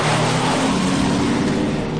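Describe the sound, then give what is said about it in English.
A car engine revs and accelerates as the car speeds away toward a canyon's edge, a loud, steady mid-pitched roar over a low rumble that holds for the whole moment. “Louise starts the car.”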